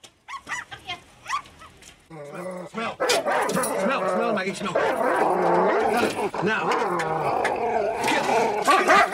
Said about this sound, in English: He spots the old lady leaving the building with her three yapping dogs.